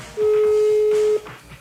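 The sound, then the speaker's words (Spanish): A mobile phone places a call, giving a single steady mid-pitched electronic tone that lasts about a second over a faint background. “Vamos a marcarle a ver si nos contesta.”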